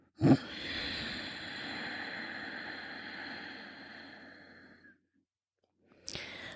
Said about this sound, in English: Inhale through the nose while gently contracting the back of your throat. And exhale slowly through the nose while keeping that throat contracted.